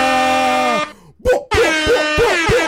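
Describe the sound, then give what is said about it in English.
A loud air horn blasts, first as a steady, harmonically rich tone lasting most of a second, then after a short gap returns as a longer, wavering blast with pulsing pitch. “Let's get the air horn going one more”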